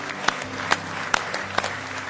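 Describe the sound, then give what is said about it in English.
Church audience applause during a service, a steady wash of clapping with a few sharper claps standing out at a loose, regular pace. “Those that are streaming, we certainly say God bless our streamers. Give those folks a nice hand tonight if you would.”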